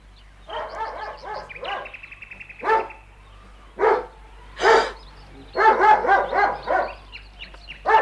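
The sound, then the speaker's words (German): A dog barking: many bright, clipped barks and yips in quick bursts, some pauses between, loud and lively, with no voices alongside. “Keine Angst, mein Kind. Mein Hund beißt dich nicht.”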